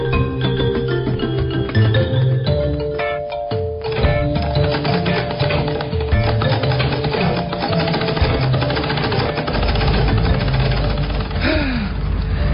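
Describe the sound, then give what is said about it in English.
Steady loud mechanical whirring of a sewing machine stitching a homemade fabric face mask, running continuously with a busy rattling texture from start to finish. “Yes, I am taking responsibility and sewing my own mask to protect you and I.”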